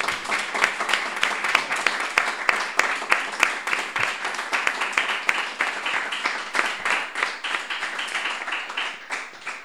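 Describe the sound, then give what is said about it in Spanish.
Applause for guests after a talk about rural women: many sharp, distinct claps from a small group in a brisk, steady patter that eases slightly toward the end, with no voices. “yo creo que se merecen un gran aplauso, ¿no?”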